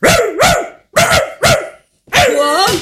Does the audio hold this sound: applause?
no